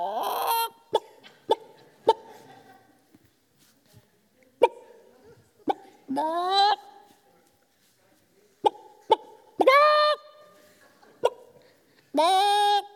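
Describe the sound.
A human voice imitates chickens in a barn: many sharp, clucking clicks scattered irregularly, broken by a few longer, nasal, rising squawks, alone and fairly clear.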